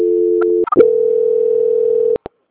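Telephone line tone during a call transfer: a steady, droning tone breaks off into a few clicks. A longer steady tone then follows and ends in two sharp clicks.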